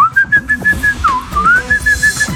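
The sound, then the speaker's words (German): A man whistles a wavering tune, a clear mid-high tone that slides and bends between steady held notes, loud and alone. “Der wahnsinnig gute professionelle Pfeifer bin ich nicht.”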